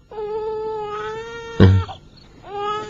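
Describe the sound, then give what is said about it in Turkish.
A hungry, motherless young one crying: long, wavering, high-pitched wails, loud and alone. Two drawn-out cries are separated by a short, sharp burst of noise. “Bu çocuğun annesi öldü. Açlıktan ağlıyor. Çok acıktı yavrucak.”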